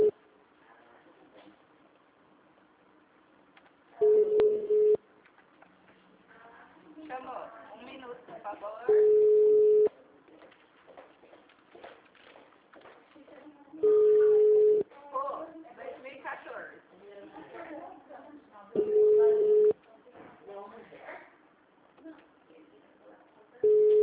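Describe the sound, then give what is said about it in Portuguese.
A telephone busy signal plays as a steady, low, flat tone in bursts of about a second, recurring roughly every five seconds. A person talks in the gaps between the tones, and the last burst is cut off. “Oi, acho que está ocupado lá, né? Vai RH? Não está atendendo?”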